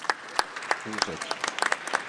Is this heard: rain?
no